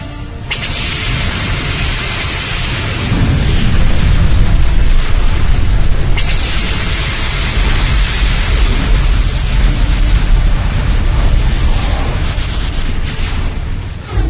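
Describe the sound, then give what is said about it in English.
Weapons fire and explosions in a space battle as missile destroyers close in, with roaring, dense rumbling blasts that barely let up for the whole stretch, loud and with no voices. “Nazim, defense batteries stand ready with countermeasures. You may fire when ready.”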